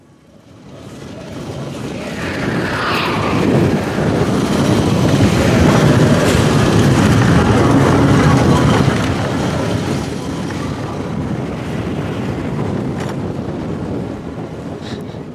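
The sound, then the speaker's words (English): Expedition Everest thrill ride at Disney World: a broad rumbling roar of the ride train with heavy wind noise. It swells up in the first second, then holds loud and steady, easing slightly toward the end. “These are all Disney World. Oh. Okay, I know that. Ding, ding, ding. What is it? Expedition Everest.”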